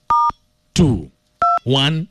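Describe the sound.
Phone keypad tones dial a star code: two short, steady dual-pitch beeps, each separated by a burst of talking.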